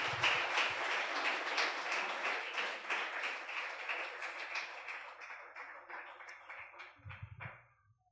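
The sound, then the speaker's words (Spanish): A church audience applauds the Lord during a sermon. The fairly faint, dense clapping slowly thins and trails off to silence near the end, with a couple of soft low thumps. “¿Cuántos dicen amén a eso? ¿Cuántos aplauden al Señor por eso?”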